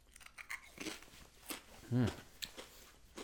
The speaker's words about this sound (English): You got a kick. There's some heat there. I hope emus taste like this. I'll eat more of them.